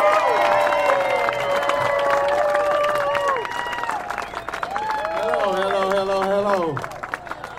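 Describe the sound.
A rally crowd cheers and applauds as a Georgia Senate candidate is welcomed in Morgan County: loud, sustained clapping under shouting and whooping voices that rise and fall in long cries throughout.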